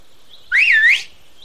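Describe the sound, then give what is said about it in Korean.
A person whistles to call hunting dogs: one loud, high, wavering whistle lasting about half a second, its pitch dipping and rising, with a faint steady tone in the background. “필리프 대령이 휘파람으로 사냥개들을 부르며 말했다.”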